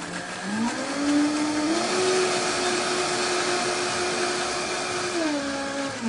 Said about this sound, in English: blend right up to a nice smooth creamy puree. So now that we have all of our beets nicely pureed